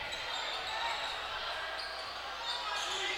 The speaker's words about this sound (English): Dribbling the other way for Farrington after a crossover move